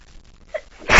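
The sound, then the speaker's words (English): A single sharp, loud sneeze bursts out at the very end after a near-silent stretch, with no speech around it. “All this sneezing and everything.”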